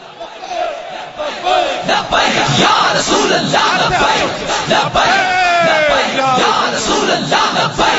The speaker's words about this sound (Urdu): محمد عربی دے شیر آئے اور کی ہویا جنا انج کر کے نعرہ لبیک دا